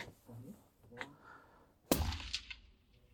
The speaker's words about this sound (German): Achtung, ich schieße jetzt.